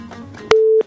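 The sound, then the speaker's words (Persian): Busy signal after a dropped phone call: a click followed by a single steady, fairly loud mid-pitched tone lasting about a third of a second, then quiet. “بله فکر میکنم تماس خطیبی عزیزم قطع شده.”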